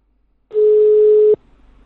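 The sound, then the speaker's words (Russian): A single steady telephone tone sounds as a call is placed, a flat, mid-pitched beep lasting under a second, followed by faint line hiss. “Нужно чуть попозже тогда перезвонить. Давайте сейчас в Робот Мани перезвоню.”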